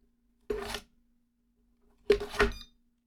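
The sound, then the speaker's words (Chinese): A card being swiped through a card reader: two short raspy swishes about a second and a half apart, the second longer with a double peak, over a faint steady hum. “我现在手中拿一张卡片，大家注意听啊，刷卡机会有一个音效的。”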